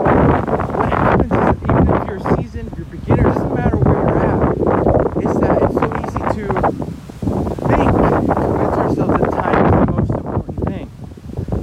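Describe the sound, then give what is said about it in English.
Strong wind buffets a microphone outdoors, a loud, continuous rumbling roar with gusty surges that runs through the whole clip. “I usually like to do these outside, but it is crazy windy out here.”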